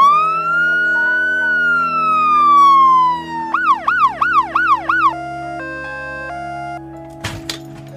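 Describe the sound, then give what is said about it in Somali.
An ambulance siren sounds loud and alone, starting with a slow wail, then switching to several fast yelping cycles, then holding steady alternating tones, ending with a brief clatter. “ambalaas ayaana si dhaqso ah kuugu imaanaysa”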